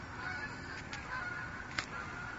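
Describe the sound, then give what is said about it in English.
Geese honking, with a few brief, faint honks over a steady low background. “It's like, oh, look at the geese.”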